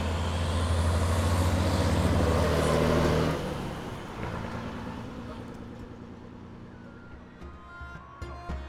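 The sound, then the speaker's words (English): A massive garbage truck driving off through a misty morning on its dumpster route, its heavy low engine drone loud at first, then easing into a quieter rumble with a few faint clanks near the end. “And so Samuel and his trusty companion, Freddy, drove off into the misty morning, emptying dumpsters into the back of their massive carriage”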